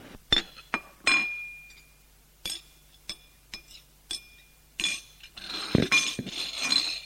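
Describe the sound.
Plates and cutlery clink as an egg is served onto a plate. Many sharp, bright taps come at first with short gaps between them, then grow busier and more continuous toward the end.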